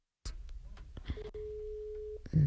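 A steady electronic tone from an outgoing WhatsApp call: one mid-pitched beep lasting about a second, with faint clicks before it and a louder thump right at the end.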